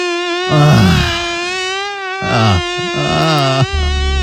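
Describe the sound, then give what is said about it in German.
A mosquito buzzes in a bedroom at night with a high, steady whining drone that holds its pitch throughout, rich in overtones, with some lower rumbling noise mixed in at moments. “Ein wahres Prachtexemplar da gestern Nacht bei uns im Schlafzimmer. Ich werde es mir heute mal nochmal angucken. Heute Nachmittag, ja, denn die Mücke hängt weiterhin bei uns an der Wand fest.”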